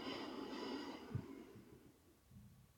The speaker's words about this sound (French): Une quatrième fois, nous inspirons.